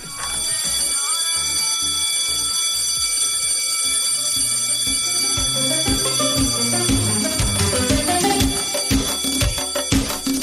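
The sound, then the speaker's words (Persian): A school recess bell ringing: a loud, steady electric ringing that runs unbroken for about ten seconds, with dense tonal and rhythmic layers beneath it. “زنگ تفریح بزن بره.”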